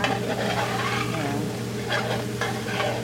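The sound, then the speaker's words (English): Vegetarian chili with vegetables and seasonings, including cinnamon, simmers in a pot with a soft, steady sizzle, occasional stirring scrapes and a low hum underneath. “All right, that is the chili. With the vegetables and seasonings simmering”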